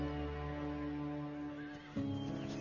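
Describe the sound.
A wild horse gives a drawn-out, tonal whinny with rich harmonics that shifts abruptly in pitch partway through and then continues strongly, with no other sounds or talk.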